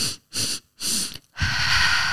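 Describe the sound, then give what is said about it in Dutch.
Bunny snuff breathing exercise: three short, sharp sniffing inhales in quick succession, then one long, steady, breathy exhale, with no talk. “de bunny snuff. En dat is eigenlijk in drie, in drie trappen inademen en dan heel lang uit.”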